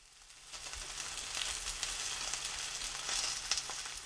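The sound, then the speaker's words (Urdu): Sardines sizzle in a frying pan over medium heat, a steady, fairly faint hiss thick with small crackles and pops that builds in the first half-second and then holds level. “گوشت ہو یا مچھلی، اس کی وہ سمت پہلے پکائیں جو آپ ڈش پیش کرتے وقت اوپر کی جانب رکھنا چاہتے ہوں. اگر سارڈین پکنے کے بعد سنہری رنگت کی ہو گئی ہو تو اسے پلٹ دیجیے.”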